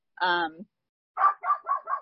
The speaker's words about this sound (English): my dogs are crazy right now. So I do apologize for the barking.